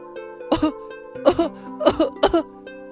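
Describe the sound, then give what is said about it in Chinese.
A child coughing hard as if something is stuck in the throat: four separate short coughing fits, each a sharp double burst, over a steady tonal hum. “小喇叭不停地咳嗽”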